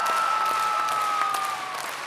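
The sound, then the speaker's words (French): A concert audience roars with steady applause, and a long, high whistle rises above the clapping. The noise stays loud and thick for the whole moment, fading slightly toward the end. “Est-ce que vous entendez cette clameur dans ce concert?”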